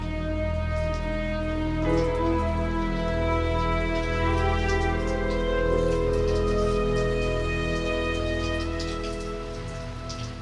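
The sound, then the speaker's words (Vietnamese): Steady rain falling on a weekend at the quiet suburban edge of Komagomi, an even, continuous hiss over sustained steady tones that holds at the same level throughout. “Những tiếng mưa rơi rả rích vào ngày cuối tuần phá tan đi cái không gian vốn dĩ yên ắng và tĩnh mịch của khu rìa ngoại ô Komagomi.”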